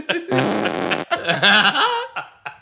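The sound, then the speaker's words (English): Buzzy fart sounds serve as a comedic rating of three farts: a few long, wavering blasts of shifting pitch, then shorter sputtering bursts that trail off. “on a scale of 1 to 3 farts, I give it a 3 farts.”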